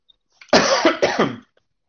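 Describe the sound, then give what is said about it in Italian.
A person coughs during an online meeting: two rough, loud coughs in quick succession, alone and without talk. “Io tossisco, ma siamo tutti online, quindi posso tossire tranquillamente.”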